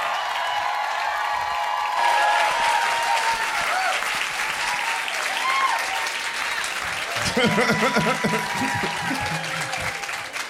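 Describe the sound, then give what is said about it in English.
Audience applause and cheering for a guest arriving on a talk show. Sustained, loud clapping runs throughout while voices talk over it, and the mix grows busier toward the end. “Please welcome, she can't do anymore, everybody. Give it up for Fabiana Rodriguez.”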